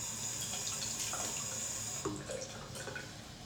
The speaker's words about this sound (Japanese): ちょっと手洗う。